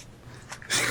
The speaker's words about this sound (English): Mukbang. It's a mukbang.